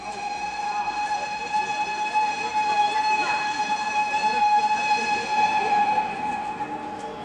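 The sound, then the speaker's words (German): Sustained train whistle at a railway platform: a steady, high, multi-toned chord holds evenly for the whole stretch over a constant bed of station noise. “Ich stehe auf dem Bahnsteig. Unverständliche Stimmen klettern in meine Ohren, bauen dort ihr Gerüst auf.”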